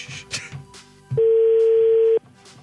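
A single steady telephone ringback tone lasts about one second as a call rings out to a radio listener in Brăila. It is loud and even, with a few faint, brief sounds before it.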